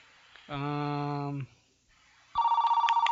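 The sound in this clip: An electronic telephone ring signals an incoming call to a Saturday night radio show. A rapid, warbling pulsed tone starts near the end, after a steady, humming low tone that cuts off abruptly.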